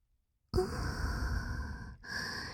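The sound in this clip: Heavy breathing: two loud, breathy exhales follow a silent start, the first long and the second shorter after a brief break, with no speech.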